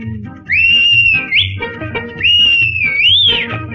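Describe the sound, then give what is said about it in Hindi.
A whistle blown in two long, sustained shrill phrases, each gliding up at its end, in a children's song about a train, with music and light percussion underneath. “कौन दिखाता इसको झंडी कौन बजाता सीटी।”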